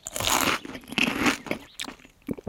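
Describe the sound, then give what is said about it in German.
Crunchy bites into an ear of corn on the cob, a few dense crunching bursts followed by shorter chewing crackles, loud and close with no talk. “Hier, wollen Sie einen Maiskolben? Schmeckt lecker. Danke, nein. Dann esse ich ihn selber.”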